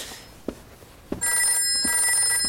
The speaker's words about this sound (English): That's the phone.